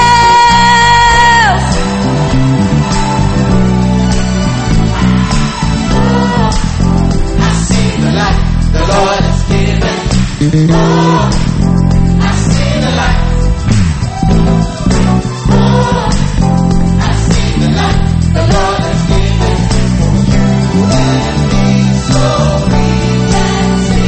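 A crowd cheering and shouting to welcome a bishop: loud, sustained whoops and yells that carry on without a break for the full length.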